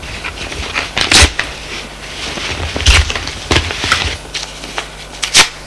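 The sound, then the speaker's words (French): Paper ripping as a letter is torn up by hand, a few sharp, crackly tearing bursts spaced out over soft rustling. “Je vais déchirer cette lettre et vous l'oublierez. Elle prend la lettre et la déchire.”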